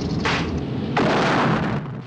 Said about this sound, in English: Craig fires a shell, rupturing the side of the fuel tank.